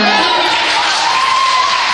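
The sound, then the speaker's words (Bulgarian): University applicants in an exam hall break into loud applause and cheering. Dense clapping and crowd voices form a steady, unbroken roar. “За сметка на това, втората тема беше посрещната с бурни овации.”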